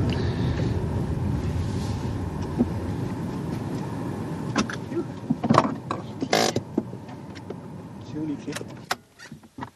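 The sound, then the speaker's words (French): A police vehicle passes by a canal with a steady motor-vehicle rumble. In the second half come sharp mechanical clicks and knocks, and then the noise drops away at the end. “Tiens, un autre véhicule des forces de l'ordre, là-bas.”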